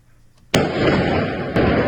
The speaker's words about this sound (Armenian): Կեսգիշերին Արցախի նախագահի նստավայրի մոտ կրակոցներ են հնչել։